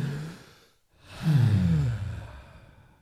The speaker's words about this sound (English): Quick breath, everybody. 1, 2, 3.